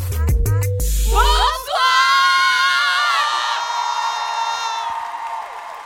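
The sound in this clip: A crowd cheers at a live comedy show at the Apollo Théâtre, with loud high-pitched whoops and sustained shouting voices that stay strong throughout. No distinct clapping stands out beneath the cheering.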